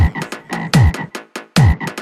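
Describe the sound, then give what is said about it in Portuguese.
Frogs croak in a loud, rapid, rhythmic series of throaty rasping calls. Many croaks overlap and repeat in a steady pattern, with no voices heard. “Sai sapo, sai sapo.”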